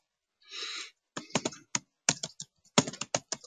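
Typing on a computer keyboard, with quick, irregular bursts of sharp key clicks and short pauses between clusters of keystrokes.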